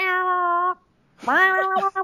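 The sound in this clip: A person imitates a cat's excited chattering with a sustained, steady meow-like tone, then after a short pause a wavering, broken run of cat-like sounds.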